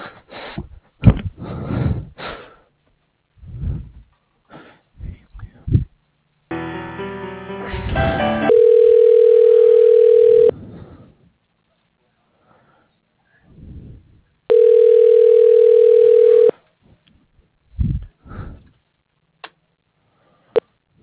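Two long, steady, mid-pitched ringing tones sound on a telephone line as a call is transferred to voicemail. Each lasts about two seconds with a long pause between them, and a short burst of harsh line noise comes before the first.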